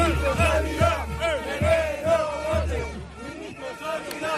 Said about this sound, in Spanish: Este es el sonido de la protesta que ha tenido lugar hoy miércoles, bueno, hace apenas dos horas, en Madrid.